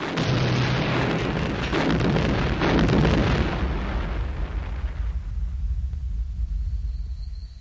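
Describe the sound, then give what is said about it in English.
A huge space station explodes in a long, loud roaring blast thick with rumbling bursts. It swells for about three seconds, then slowly fades into a low, lingering rumble. “mere moments before the Death Star flared into oblivion like a supernova”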